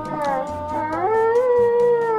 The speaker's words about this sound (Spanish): Parecen perros.